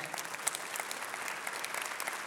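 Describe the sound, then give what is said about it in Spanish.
A church audience claps during a Spanish-language worship service at the new year. The applause is fairly faint but steady, with sharp individual claps flickering through the continuous patter. “Dale con fuerza ese aplauso a aquel que va a estar con nosotros en este nuevo año.”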